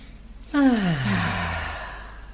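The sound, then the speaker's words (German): A deep breath let out as a loud voiced sigh during a guided arm exercise. Breathy air leads into a tone that slides steadily down in pitch and trails off over about a second and a half. “Ich atme einmal tief durch.”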